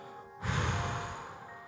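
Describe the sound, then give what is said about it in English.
A long exhale through the mouth during a calming breathing exercise: a broad, breathy rush of air that starts abruptly and holds steadily for over a second before slowly easing off. “Brief pause and a long exhale”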